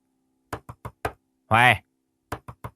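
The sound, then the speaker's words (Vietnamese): Knocking on a wooden door: four sharp raps, a brief voiced call, then three more raps, loud and crisp against near silence. “Bà Tào đập cửa vừa kêu to lên.”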